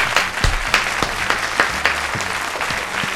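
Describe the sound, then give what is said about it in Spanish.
Audience applause welcoming a comedian onto a Spanish show, loud clapping marked by strong, regular thumping beats about three per second, giving a steady rhythmic pulse beneath the clatter. “Un aplauso para él, por favor.”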